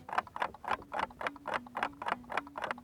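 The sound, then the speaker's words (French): A clock ticking in a fast, steady, evenly spaced series of moderately loud ticks, with a faint low hum running beneath. “Tout se joue au niveau du tic le tic et le tac sont séparés par une distance égale.”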